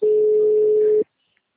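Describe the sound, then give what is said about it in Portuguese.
A single steady mid-pitched ringing tone on an outgoing VoIP phone call sounds loudly for about one second, then cuts off to silence. “chamando no VoIP.”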